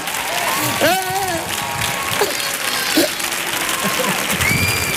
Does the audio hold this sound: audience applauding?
yes